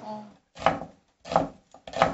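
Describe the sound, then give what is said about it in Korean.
A knife chops onions in four solid, evenly spaced strokes, each a sharp, crisp thud with a short tail and brief silence between them. “아 쉽지 않다. 양파 썰 때가 진짜 진짜 눈물 많이 나는데.”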